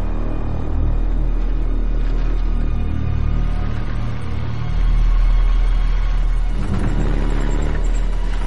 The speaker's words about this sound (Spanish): Entonces aparece un vehículo a lo lejos.